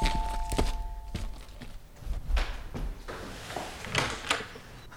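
Footsteps and a door being opened to let a visitor in: a run of dull thumps, knocks and scuffs, with a few louder clunks scattered through.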